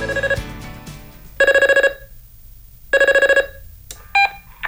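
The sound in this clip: A telephone rings in repeated bursts of bright, trilling bell tones, each lasting about half a second, with short silent gaps between them.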